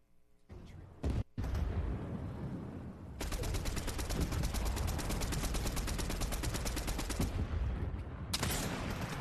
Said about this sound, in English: There's, oh, they're shooting at you.